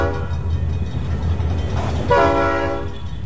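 A train with its horn sounding as it passes a road crossing. A loud, harmonic horn blast rises over steady rumbling rail noise, fades, then sounds again partway through.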